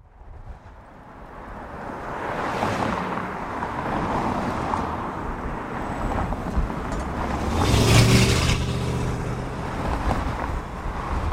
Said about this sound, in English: That is the sound of Lincoln Boulevard, a thoroughfare on the west side of Los Angeles. The fact that you can hear more cars whizzing by is actually a testament to how much less traffic there is in this notoriously gridlocked city.